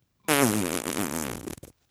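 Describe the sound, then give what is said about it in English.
A voice imitates an elderly man's fart against a chair: one loud, buzzing, raspy blurt lasting about a second and a half, its pitch wobbling throughout before it breaks into a few short sputters and stops. “And he just farted. Like, listen. It was like up against the chair. It was like,”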